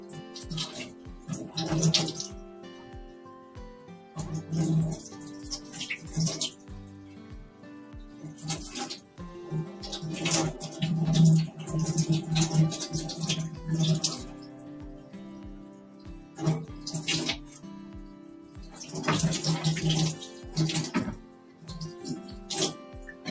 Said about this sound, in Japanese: とりあえずアラって、今、これ湯通ししてます。ちょっとね、洗って血を、まず、取って。